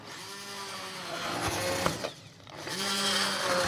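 Motor whir of an immersion blender pureeing cooked soup, a fairly faint buzzing hum that drops out briefly midway, then resumes at a steady pitch.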